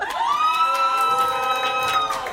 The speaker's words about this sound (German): Also wie viele Leute haben denn so jemand da in dem Publikum von euch? Rufen mal hoi.